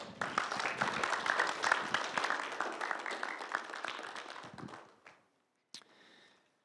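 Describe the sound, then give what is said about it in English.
Audience applause at a church gathering after a man shares his story: dense clapping for about five seconds that gradually tapers off, then a brief silence and a stray sound. “Y'all give him a hand.”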